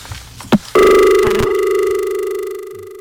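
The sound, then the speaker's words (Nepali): A telephone line cutting off mid-call: one sharp click, then a steady mid-pitched electronic tone with bright overtones that holds and slowly fades away. “Phone line काटिएजिँदैछ”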